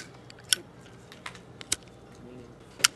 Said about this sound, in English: The windproof lighter with its familiar click and blue flame has been an American mainstay for everyone from GIs in foxholes in Germany and Vietnam to Indiana Jones.